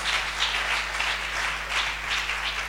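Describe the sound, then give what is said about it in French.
Congregation applauding and acclaiming in a church service, a dense, steady wash of many hands clapping that holds at an even, fairly loud level throughout with no clear gaps. “Tu vas acclamer Dieu pour sa vie pendant qu'elle vient.”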